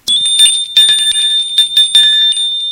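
A doorbell rings in a loud, continuous metallic jangle: many rapid strikes over one bright, steady ringing tone, heard on its own.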